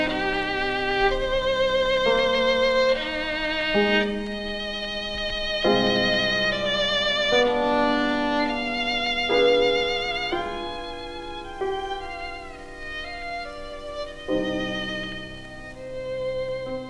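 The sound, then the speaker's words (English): A slow, solemn Baroque-style classical piece, 'Grave in the style of Bach', once falsely passed off as a genuine Baroque composer's work. Rich sustained harmonic notes shift chord every second or two at a steady, fairly loud level, with no voices. “they now refer to it as Grave in the style of Bach.”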